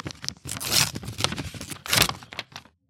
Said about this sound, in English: Yes, and open it. Wait, get that foley of the letter open.